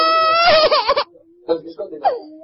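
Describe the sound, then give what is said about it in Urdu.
A child cries with a loud, wavering, high-pitched wail that breaks into shorter whimpering sobs, and voices talk nearby. “پاپا یہ رو رہے ہیں, ان پہ دم بھی کریں.”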